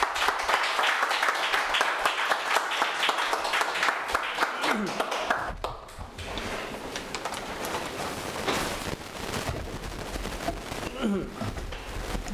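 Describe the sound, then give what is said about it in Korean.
A church audience claps for a lecturer coming onto the stage: dense, sustained applause that stays loud throughout and thins slightly after about six seconds. “나오실 때 우리 감사와 또 격려의 박수를 한번 드리도록 하겠습니다.”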